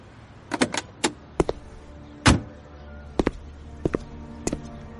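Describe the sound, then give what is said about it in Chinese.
Car door opening: a scattered series of sharp clicks and knocks, with one heavier thunk near the middle. Quiet background between the hits. “庆诊打开车门，他一下车”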